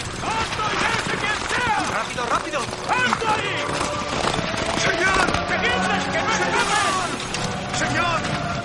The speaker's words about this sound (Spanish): Llegan varios hombres a caballo.